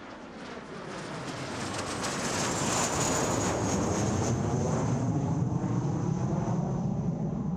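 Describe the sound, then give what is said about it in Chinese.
An airplane at a dark, empty airport, a broad jet roar that swells over the first seconds and then holds steady and loud, with no voices. “我们现在看着飞机在录音”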